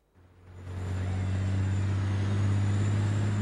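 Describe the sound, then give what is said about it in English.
Low, steady engine drone of a truck driving on a highway, swelling in from near silence over the first second, then holding loud and even with a deep rumbling hum. “The truck is on the highway.”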